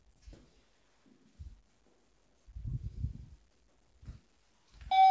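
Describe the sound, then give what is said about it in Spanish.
A smart home sensor gives one loud, bright electronic alert chime at the very end, after a stretch of near silence broken by a few faint low thumps. “Ese es el sensor este, ¿vale?”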